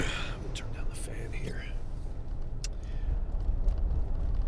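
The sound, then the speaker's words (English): Car driving to work on a road the morning after snowfall, a steady low rumble running throughout beneath a person talking. “So today I'm driving through, uh, I'm leaving a little early for work because um, we've had some snow yesterday.”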